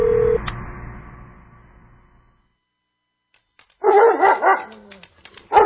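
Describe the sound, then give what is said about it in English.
A dog barks in a loud, rapid burst of several sharp barks, followed by a few fainter yips. “My gosh, Diablo, shut up! That is it. Outside. Now. Get out now. Why did Alex get that dog?”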